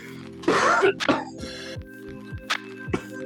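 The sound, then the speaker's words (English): A man clears his throat to get rid of mucus, one loud rasping hack followed by a shorter one, and then he starts talking. “I'm not sick. I'm just getting rid of the mucus.”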